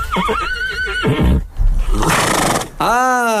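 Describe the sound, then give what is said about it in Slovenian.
A Lipizzaner horse neighs with a loud, bright, wavering whinny near the end, after a few seconds of rougher noisy sounds. “Kot slišite, so lipicanci pripravljeni.”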